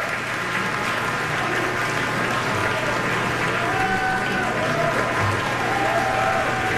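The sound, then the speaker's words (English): A concert audience gives a standing ovation after a performance: sustained, even applause of many hands clapping, loud and unbroken throughout. “standing ovation from the audience after that performance. Everybody on their feet here applauding this beautiful evening of music we've been able to share in tonight.”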